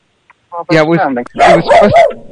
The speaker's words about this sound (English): barking. This is really weird. Hang on, what's he barking at, though? Oh, maybe it's a postman.